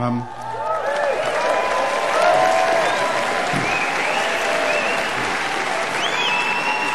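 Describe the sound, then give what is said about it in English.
An audience at an evening show applauds itself with sustained, dense clapping that swells briefly and then holds steady for several seconds while a voice talks over it. “it's nice to see you gave yourself the clap you so richly deserved.”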